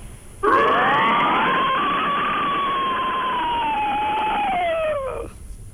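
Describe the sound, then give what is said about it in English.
A voice imitates an inhaled pterodactyl scream: one sustained, rasping, whistle-like cry held for about five seconds, its pitch sweeping up at the start and then sliding slowly down before it cuts off. “This is going to be a pterodactyl. So what it is, it's a sweep up and then a sweep down. Still with that inhale, so it'll sound like this.”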